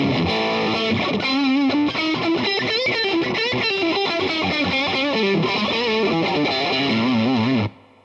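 Electric guitar played on the neck pickup through heavy distortion. It plays a continuous melodic line of sustained, wavering notes with no voices, then cuts off abruptly just before the end.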